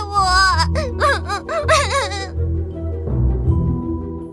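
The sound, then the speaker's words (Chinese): A little girl crying in a children's story about swans: loud, wavering wails with several rising and falling cries, then a quieter, lower stretch of sobbing. “小女儿哭了好一会儿。”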